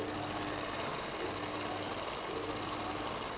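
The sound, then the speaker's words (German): A sewing machine runs in a tailoring workshop while a suit is stitched, giving a faint, continuous mechanical whirr with an even texture and no pauses. “Hier näht sie Pierres Anzug.”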